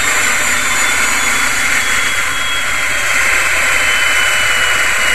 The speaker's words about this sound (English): Let's see real close in the background for when they turn this on for that generator to kick down, to bog down. Just turned on the saw.